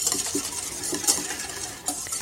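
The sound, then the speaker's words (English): Egg yolks and thick condensed milk being whisked together for a lemon icebox pie filling. A steady, busy run of light clicking and scraping strokes continues throughout, with no voices. “Now the rest of the condensed milk from the can we already opened is going in with the egg yolks. Actually, I'm going to whisk those a little bit first.”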